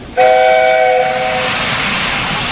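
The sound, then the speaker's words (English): Steam locomotive whistle from a mail train, a loud, steady multi-tone blast lasting about a second and a half, followed by the continuous rumbling of the moving train. “you can still hear the faraway call of an engine's whistle and the clickety-clack of train wheels turning.”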